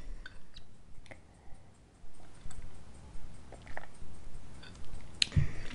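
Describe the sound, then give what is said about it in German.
Soft mouth sounds of someone sipping a drink, with a run of gentle, evenly spaced gulps and swallows and a sharper click near the end, quiet and alone. “Ja, jetzt trinke ich nochmal einen Schluck.”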